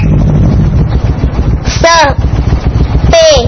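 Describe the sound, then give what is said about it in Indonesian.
Motorcycles pass over steady rushing wind and road noise, each passing marked by a brief whining engine note that drops in pitch, two in all. “Itu suara apa ya teman-teman? Masya Allah, ternyata sepeda motor.”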